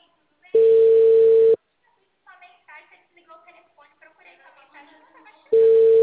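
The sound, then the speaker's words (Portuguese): Two steady, mid-pitched ringing tones of an outgoing phone call, each about a second long, with a voice talking in the gap between them. “Tô ligando aqui.”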